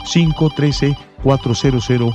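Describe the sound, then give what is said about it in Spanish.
A telephone rings with an incoming call: two bursts of electronic ringing, each made of about four quick tonal pulses, separated by a short pause, loud and clear. “Ya tengo una nueva comunicación, voy a agarrar esa llamada.”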